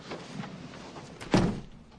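A room door swings shut with a single dull thud after faint shuffling, and the sound quickly fades.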